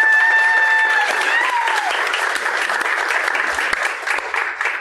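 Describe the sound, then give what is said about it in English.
Sustained audience applause at a company town hall meeting in Indianapolis, loud and dense from start to end, with a held tonal sound over the opening that fades out within the first two seconds. “Let's have a big round of applause here in Indianapolis for”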